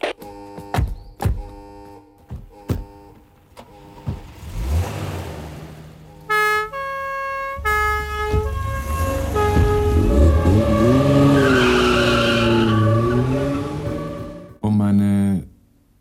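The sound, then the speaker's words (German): Police cars speed off on an alarm call after an armed breakout with a hostage. A few sharp clicks come first, then loud engines rev in a wavering whine that builds, with noisy bursts in the middle and at the end. “Alarm nach A3. Alle Wagen sofort an ihren Einsatzort.”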